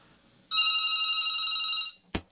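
A telephone rings with an incoming call: a single sustained electronic trill lasts about a second and a half, then stops, and a brief sharp click follows.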